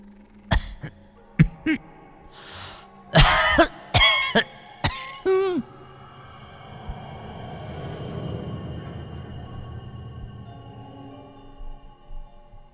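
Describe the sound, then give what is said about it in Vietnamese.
An old woman with long-standing asthma coughs: a run of several harsh, hacking bursts, some in quick clusters, the last ending in a strained wheeze. A faint, low steady hum follows. “Đột nhiên, có tiếng ho khổ khổ vang lên, làm cho bác giật mình.”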